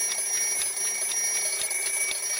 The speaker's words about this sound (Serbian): Jači budilnik.